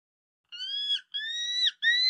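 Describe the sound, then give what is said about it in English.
A bald eagle call: three high, thin whistled notes, each held about half a second at a fairly steady pitch, the last one cut short. The notes are rather faint and heard alone. “Now, prepare yourself for the fierce cry of the bald eagle.”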